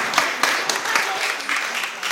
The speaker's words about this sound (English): I just think a round of applause for these guys here. Well done.